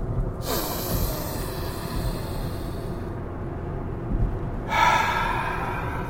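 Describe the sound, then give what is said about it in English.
Deep breathing inside a car: slow, heavy breaths sound as loud airy rushes, with a quieter stretch between them. “All right, 3 deep breaths. First one, go.”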